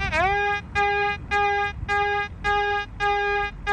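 A metal detector passing over a nickel sounds a string of evenly spaced, buzzy harmonic beeps. The first beep swoops upward in pitch before it settles, and the rest hold one steady tone.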